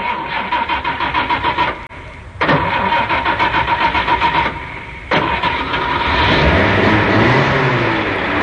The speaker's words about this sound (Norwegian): Om dere kunne være så snill og vri om på den lille nøkkelen som sitter her, så prøver vi en liten start.